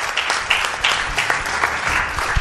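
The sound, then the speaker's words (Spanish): Audience applause for the show's producer: dense, steady clapping from a crowd that stays loud and even for the full couple of seconds, with a few sharper individual claps standing out. “aquí os pido un aplauso para él”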